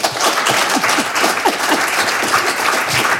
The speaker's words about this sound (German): Spendieren Sie ihn trotzdem einen Willkommensapplaus.